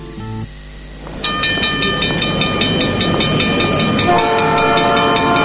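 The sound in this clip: A train passes as a sound effect: a steady mechanical rumble and hiss swell in, then a sustained multi-tone horn blares loudly over the continuous clatter.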